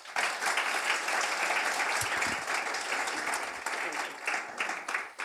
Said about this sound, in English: Please put your hands together and welcome Arantxa.